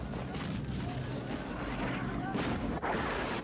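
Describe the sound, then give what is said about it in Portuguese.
Dense gunfire and blasts in a dubbed film scene where people are being shot at, forming a loud, unbroken barrage of booming shots with no clear pauses. “Caramba! Quem tá atirando na gente, hein? Por aqui todo mundo atira na gente.”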